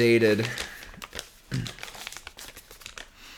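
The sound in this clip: Crinkling and crackling of a crumpled paper letter, handwritten in cursive and dated 1977, as it is handled. A brief voice comes first, then many dry, irregular rustles and crunches.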